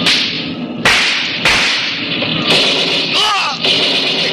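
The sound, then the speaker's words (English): Tommy-gun fire aimed at a car during a chase: a few sharp, loud, separate cracks over a continuous rushing background roar. “Hey, they're shooting at us. Tommy guns.”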